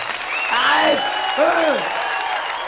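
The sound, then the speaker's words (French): Steady group applause during a singing rehearsal, a dense even hiss of clapping with a loud voice swooping up and down over it twice. “C'est pas la peine d'applaudir.”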